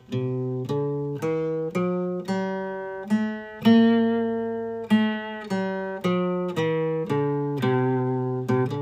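A full Lydian dominant scale played note by note on a pitched instrument. Each tone is struck and left to decay at a steady, even pace through a long run of notes, with no voices.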